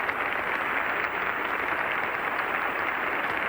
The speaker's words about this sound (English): Mr. Toscanini is being cheered by the audience at this afternoon's concert. He is called upon the chorus of the Scala Cantorum and the orchestra to rise with him.